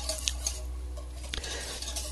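Stirring a flour-thickened mixture in a pot as it boils gives faint, steady scraping with light clinks of a utensil against the pot, over a constant low hum.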